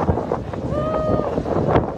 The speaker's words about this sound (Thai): ลมแรงมาก